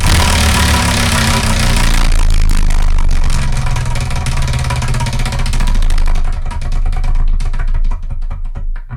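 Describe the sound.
Rapid, dense clatter of a wheel picker being spun, ticking loudly at first and then thinning out into slower, more widely spaced clicks as it winds down.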